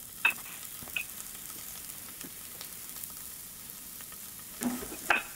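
Italian sausage sizzles in a small personal electric frying pan, a faint, steady crackling hiss broken by a few sharp clicks and scrapes from stirring.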